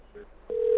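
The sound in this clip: A telephone line ringing. A steady, single-pitched tone starts midway and holds loud to the end, after a faint short beep at the start.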